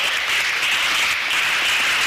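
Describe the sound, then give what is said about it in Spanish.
Applause from an audience at a morning church service is a steady, unbroken hiss of many hands clapping together at moderate loudness, with no voices above it. “Denle un aplauso al Señor en esta mañana.”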